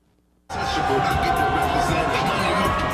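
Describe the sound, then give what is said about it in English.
A crowd cheers Patrick Mahomes as he comes out of a porta potty. After a brief quiet moment, a loud wall of cheering and shouting bursts in and holds steady. “here's some video of Pat Mahomes coming out of the crapper and getting cheered.”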